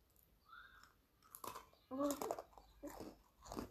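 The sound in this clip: A small pretzel being crunched and chewed: a few irregular, crisp crunching bursts of moderate loudness follow a quieter start, with short gaps between bites.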